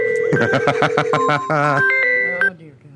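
Phone text message alert: a loud, rapid string of electronic beeps, then a brief warbling tone and a few longer held tones before it cuts off and fades.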